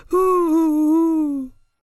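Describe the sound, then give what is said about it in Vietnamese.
A man cries with a single drawn-out, wailing moan of about one and a half seconds. It is loud and alone, its voiced pitch wavering slightly and sagging toward the end before it breaks off abruptly. “Hành giả nghe vậy, cũng khóc nức nở.”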